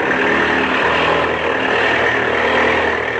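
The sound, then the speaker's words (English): An airplane engine revs hard as its throttle is opened wide, producing a loud, sustained, steady drone with no voices. “Now, open the throttle up wide.”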